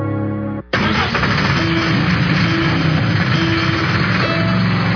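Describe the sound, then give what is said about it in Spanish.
A truck engine cranks and catches on a new 2019 NLR or NMR light-duty model, then settles into a loud, steady, rough roar that holds for several seconds. “Primero en arrancar con el pie en el acelerador.”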